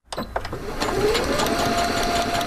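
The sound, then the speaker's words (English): A sewing machine runs in a home bedroom converted into a sewing workspace, starting with a few sharp clicks before settling into a steady, fast mechanical whir that holds to the end. “Inside her Virginia Beach home, one bedroom has been turned into a sewing workspace.”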